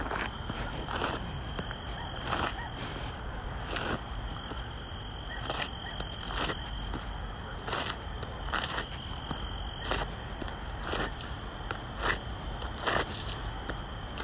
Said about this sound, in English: bury it and then I think I also want to kind of move it so nobody steps on it. Let's move some dirt from over here.